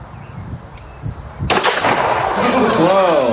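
A single sharp gunshot cracks out midway through, loud and sudden, followed by a long ringing, rumbling decay after a quieter stretch of low background noise.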